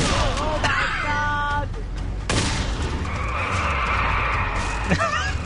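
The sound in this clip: Car tires skid with squealing tones in a video game police-car chase, ending in a sharp crashing impact, then a steady rumbling engine bed continues.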